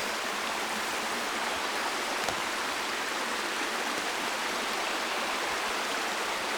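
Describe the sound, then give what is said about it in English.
Clear, cool water running over rocks in a fern-lined river, a steady, full rushing and gurgling that holds an even loudness throughout, with no voices. “come back to the sound of this running, clear, cool water running over the rocks”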